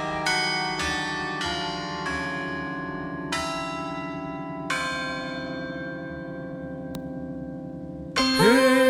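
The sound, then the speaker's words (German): Church bells ring in a slow, uneven series of strikes, each clang fading into a long humming decay over a low drone. A louder, different sound cuts in near the end. “Hört den Klimaglockenton. Die Klimaglocken läuten für uns schon.”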